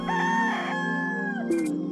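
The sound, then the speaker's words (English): A rooster crows outside a family compound where donkeys, goats and many chickens live: one long, drawn-out, high-pitched crow, followed by the start of a second loud call. “Outside our compound, there are donkeys, goats, and lots of chickens. The rooster never stops crowing.”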